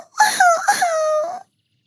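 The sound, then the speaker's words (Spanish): A voice imitates a bear cub crying: one loud, wavering wail lasting about a second, quavering at first, then holding a long tone before cutting off. “Lloró bebé oso.”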